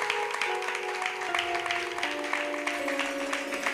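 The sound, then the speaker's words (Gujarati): Applause at a Swaminarayan religious discourse (katha) at Vadtal, a steady wash of clapping with sustained musical tones running beneath it throughout. “એકવાર જોરદાર તાળીઓના નાદથી આપણે પૂજ્ય શાસ્ત્રી સ્વામી એમની કથાને વધાવીએ.”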